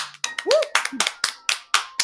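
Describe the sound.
Sharp hand claps of congratulation come in a steady, even rhythm, many in quick succession, with a voice speaking briefly among the first few.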